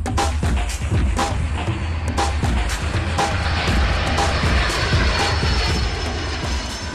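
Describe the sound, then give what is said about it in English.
A seaplane's engine in flight on the way to a remote lake camp, a loud, steady droning roar that holds at an even level throughout with no break. “or you can fly to the lake in a seaplane. Either way, it's an adventure.”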